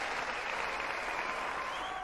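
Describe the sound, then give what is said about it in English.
Applause from an audience at the opening of a variety show, a dense, steady wash of clapping that holds at an even level throughout with no talk over it. “I gotta get my applause before I even do any of this.”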